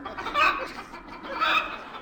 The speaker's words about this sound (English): We rode in silence, save for the odd noises camels are wont to make.